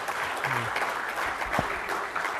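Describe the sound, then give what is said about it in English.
An audience at a community event applauds the presenting organizations with a full, continuous round of clapping from many hands, holding at a steady level, with brief voiced sounds rising through it. “I'd like to ask you to give a round of applause to our 3 organizations that presented today.”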